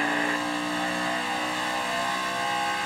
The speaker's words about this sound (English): So we're coming to the green here, on board the four car. Ready. Now they're going through the gears.